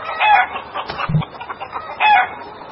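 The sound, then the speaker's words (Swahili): Hundreds of chickens roam the town streets of Puyallup, Pierce County, Washington, clucking and squawking. A few loud bursts of overlapping clucks rise above a steady background of fowl chatter, with no talk. “walikuwa na kibarua kigumu Alhamisi wiki hii cha kuwafukuza mamia ya kuku waliokuwa wakizurura kwenye mitaa ya mji wa Puyallup, county ya Pierce”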